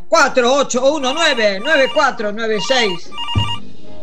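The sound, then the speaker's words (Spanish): Telephone ringing: a brief warbling electronic trill comes in at the very end, right after a loud, continuous voice with strongly pitched, sung-sounding phrases. “Sonando el teléfono.”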